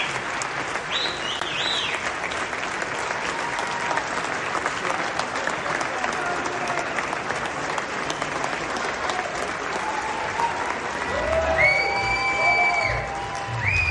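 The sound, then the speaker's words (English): Standing ovation from an audience at a Bloomberg event, with loud, sustained applause, cheering and occasional high whoops that swell near the end. “That's right. Standing ovation. Standing ovation.”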